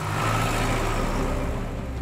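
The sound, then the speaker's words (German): Steady rumbling drone of a vintage vehicle's engine driving along on a classic-vehicle ride near Forbach, continuous and fairly loud with no breaks. “Am Wasserkraftwerk in Forbach endet unsere Oldtimerfahrt.”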